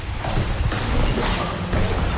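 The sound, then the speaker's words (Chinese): Footsteps of two people arriving at their office in a botanical research institute building at eight in the morning, shoe soles scuffing the floor in a few evenly spaced, dull steps. “比人先到的是一串脚步声。”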